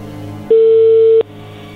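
A telephone tone after the caller hung up: one steady, mid-pitched beep lasting under a second, loud over a low background hum, starting and stopping abruptly.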